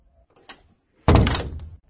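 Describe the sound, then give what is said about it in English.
A garden shed door is pulled shut, landing with one loud, heavy thump that rings briefly before fading, after a faint earlier click. “Finally, Ridwan went to the garden shed, opened the door and went inside. He then closed the door behind him”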